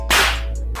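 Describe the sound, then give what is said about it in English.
A detailed slap rings out in an animated scene with Bulma and Beerus: a sharp, whip-like crack with a hissing tail, followed by a second, shorter smack. “slap. But rather than just being a quick slap, the level of detail on this slap was amazing.”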